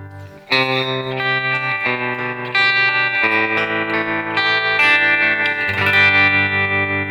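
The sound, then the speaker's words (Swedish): An electric guitar plays through a tremolo and reverb effect, ringing out a series of sustained chords and notes that shift every second or so, with a shimmering, wet tail and no talking. “Och så har vi då hans tremor reverb.”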